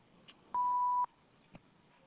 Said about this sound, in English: Please leave your name and phone number after the beep.